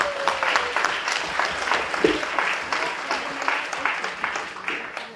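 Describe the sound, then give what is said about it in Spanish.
An audience at a social-movement forum in Oaxaca applauds to welcome a speaker. Individual claps stand out within a moderately dense, steady round of clapping that keeps an even level. “Vamos a recibirla con un aplauso, compañeros, compañeras.”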